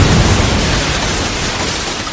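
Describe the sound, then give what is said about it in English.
A gas pipe explodes after being struck by a bullet, producing a loud, dense roar of rushing noise that holds steady for about two seconds and fades only slightly. “went down as he collapsed from an explosion, as one of the missing bullets targeted and fired upon a gas pipe from out of the room he just exited from.”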